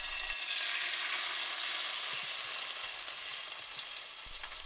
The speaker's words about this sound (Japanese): だからこうやってお肉にうっすら粉がついている状態でフライパンに入れます。